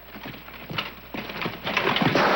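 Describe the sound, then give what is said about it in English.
Hooves of a horse charging in a jousting contest pound out a fast, uneven run of thudding clip-clops that grows louder over a couple of seconds, with no voices. “He and his opponent ride toward each other. Lancelot's knocked from Beric's back.”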